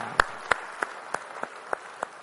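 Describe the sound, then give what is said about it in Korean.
Applause in a church service, heard as seven sharp, evenly spaced claps in a steady rhythm, each one distinct and fairly loud. “우리 찬양받을 주님께 영광의 박수 올리겠습니다.”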